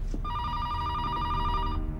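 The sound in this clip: A telephone rings on a hospital emergency-room reception desk, giving one bright, steady electronic trill about a second and a half long over low background noise.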